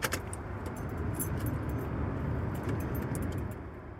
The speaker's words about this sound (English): I'm gonna start the van for the first time since pulling over.